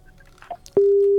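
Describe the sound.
Telephone busy tone after a caller's line is cut: a few faint clicks and rustles, then a loud, steady single-pitch tone cuts in abruptly and holds unbroken to the end, with no voices.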